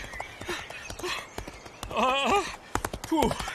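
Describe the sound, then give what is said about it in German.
A shy pony trots eagerly toward strawberries, its hooves clip-clopping in a quick, uneven patter while people talk over it. “Sie ist eigentlich ein ganz liebes, schüchternes Pony.”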